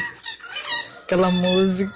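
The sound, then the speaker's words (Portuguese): Birds call in the background during a live phone call, their bright chirping and clucking tones coming in short bursts while a person speaks over them in the foreground. “Que delícia ouvir os pássaros no fundo.”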